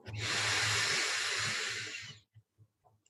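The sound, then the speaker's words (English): A single slow, deep breath drawn in during a guided breathing exercise, a long, loud airy hiss lasting about two seconds that stops abruptly, followed by a few faint soft ticks in the quiet. “One more slow, deep breath in”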